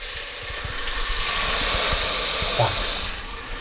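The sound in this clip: Game broth poured into a hot pan sets off a loud, steady hissing sizzle of steam that holds at an even level for a few seconds before easing slightly at the end.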